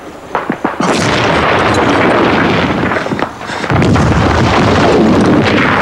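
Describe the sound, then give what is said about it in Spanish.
Explosions of a hand grenade thrown at German soldiers during a wartime trench assault: a few short sharp pops, then two loud booming blasts, each followed by a long rolling rumble, with no voices. “A su derecha ve también cómo Raven le pasa a Jackson una granada de mano y este la lanza contra los alemanes.”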